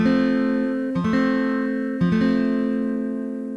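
A guitar F chord strummed only on the middle three strings, the 4th, 3rd and 2nd, rings out alone. A few strums land about a second apart, and the bright chord sustains between them before slowly fading.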